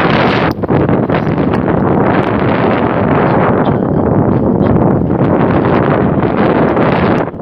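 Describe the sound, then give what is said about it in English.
Strong wind blows hard against the microphone, a loud continuous roaring rush that buffets and surges in gusts throughout, with no voices. “Made the turn north, and the wind said, "Hey, we missed you."”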